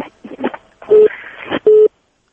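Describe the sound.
Two short, steady, mid-pitched busy-tone beeps on a telephone line after a caller's call cuts off, with brief muffled bursts of sound before and between them.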